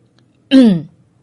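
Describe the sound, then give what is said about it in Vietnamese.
A man clears his throat once: a short, voiced rasp of under half a second whose pitch slides downward, standing alone against near silence. “Anh đằng hắng một tiếng.”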